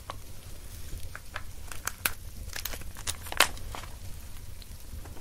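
Paper wrapping crinkles as it is handled, giving many soft, scattered crackles and rustles over a low, steady background. No one speaks during it.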